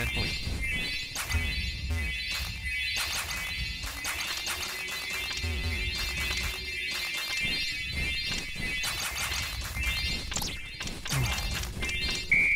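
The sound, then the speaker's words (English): Snow flowers crushed in a video game make many sharp crunching smashes in an irregular run, over steady electronic game tones. “You crushed 8 snow flowers. You lose 8 points.”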